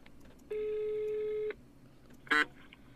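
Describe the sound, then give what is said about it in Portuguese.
A phone ringing on the line while the caller waits for an answer: one steady, buzzy tone lasting about a second, then a pause and a brief sharp burst. “Vou ligar aqui pra ela. Espero que ela atenda.”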